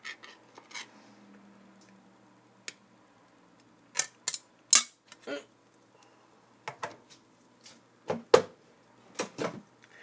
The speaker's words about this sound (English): Listen to the crispy, crispy sounds of the can opening.